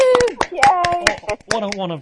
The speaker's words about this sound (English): We set a round of applause for Anna.